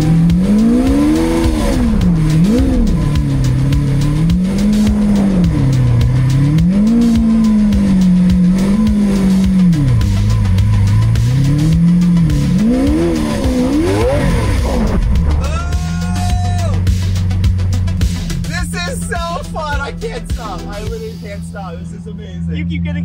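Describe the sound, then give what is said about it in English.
Engine roar from a four-wheel-drive 2017 Lamborghini Aventador S drifting in a backyard during a record snowstorm. It is loud and continuous, swinging up and down in pitch many times, then turns into higher, shifting whines near the end. “I'm literally drifting my Lamborghini in the backyard of my house in a record snowstorm.”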